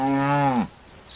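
Cattle moo in a farmyard: one loud, low bovine call holds steady for over half a second, dips in pitch and cuts off sharply, leaving a quiet background.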